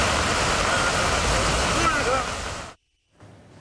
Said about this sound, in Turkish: Bu görüntülerde Adana'dan. Şiddetli yağış nedeniyle cadde ve sokakları su bastı. Bazı alt geçitler suyla doldu. Araçlar yolda ilerlemekte güçlük çekti.